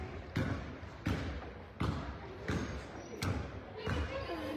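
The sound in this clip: A basketball is dribbled up the court during a game, about six steady, evenly spaced thumping bounces under voices and court noise.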